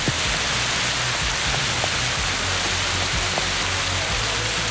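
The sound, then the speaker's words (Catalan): Rain pours down in Tordera during a storm, a steady, dense hiss with a low rumble underneath that stays loud and even throughout, with no voices. “Sí, aquest és el so de la pluja ara mateix a Tordera, ho podeu sentir.”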